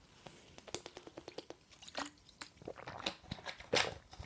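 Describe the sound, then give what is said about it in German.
A sip of a drink comes through as a few faint clicks and soft, wet mouth and swallowing sounds. The sounds are quiet and uneven, with no talk over them. “Ich trinke erstmal noch einen Schluck, bevor ich das erste vorlese.”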